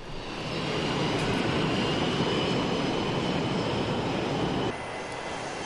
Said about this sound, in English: So they're in an airport control tower. Sounds like it.